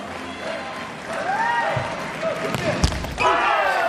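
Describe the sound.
A volleyball serve during a match: one sharp, loud strike cuts through steady crowd noise, with a voice talking over it.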